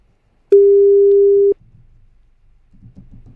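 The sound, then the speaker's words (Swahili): A telephone ringing tone sounds once as a single sustained, mid-pitched steady beep lasting about a second and cuts off abruptly. Faint, low background noise follows. “chukua simu bosi wangu”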